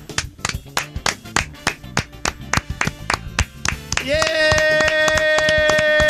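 Studio applause for an ovation: a steady run of many sharp, rhythmic claps from a few people. For the last two seconds, a sustained tone rises and then holds over the clapping.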